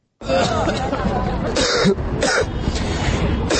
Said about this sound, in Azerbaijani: gənclər Tibb Universitetinin həyətində uzanıb öskürməyə başlayıblar.